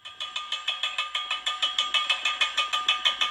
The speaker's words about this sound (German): Was sich anhört wie das Klappern von leeren Dosen, kommt mutmaßlich vom Gas. Das strömt offensichtlich noch immer durch die rostigen Förderrohre,